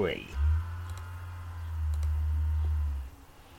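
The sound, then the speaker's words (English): A key turns in a heavy iron door lock, giving a steady low rumble for about three seconds with a few faint, soft clicks. “The key fits perfectly into the lock. You turn it slowly and release it when a soft click reaches your ears, indicating the heavy iron door is now unlocked.”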